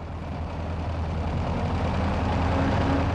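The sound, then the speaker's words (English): Vehicle engines at a Mexico City emissions inspection center make a steady, low idling rumble that continues without a break. “At this inspection center, Workers say about 15% of vehicles fail the emissions test on their first try.”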